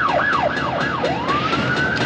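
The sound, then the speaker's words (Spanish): Siren on a street as a police car and an ambulance arrive: loud wailing tones that sweep down and back up in quick repeated cycles, then one longer, slower rising wail. “Llega un coche de policía e inmediatamente una ambulancia traslada el cuerpo de Sam”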